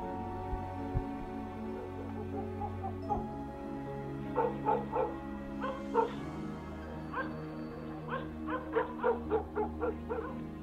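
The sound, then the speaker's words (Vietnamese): A yellow dog barking frantically at night: many quick, yapping barks in uneven clusters over a steady low hum, starting after a few seconds of quiet. “làm cho con chó vàng đang nằm ở ngoài hiên cũng vùng dậy, sủa lên điên loạn.”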